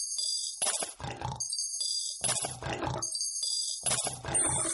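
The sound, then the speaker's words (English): Tamworth piglets in a litter give rough, low grunts in three separate bursts over a steady high hiss. “That's just got to be a litter of Tamworth piglets filling their piggy banks for the deposit on a new pigsty.”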